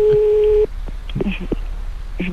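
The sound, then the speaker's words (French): A home telephone rings with a steady electronic tone lasting over half a second. Voices then talk briefly before the tone starts again. “ça sonne chez moi.”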